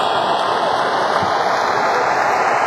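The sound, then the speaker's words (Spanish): Fans in the stands of a baseball stadium make a dense, continuous roar, a loud unbroken wash of crowd noise that holds steady without pause. “El público haciendo lo suyo en las tribunas.”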